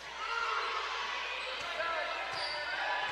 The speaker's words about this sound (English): Hambrick dribbles between the circles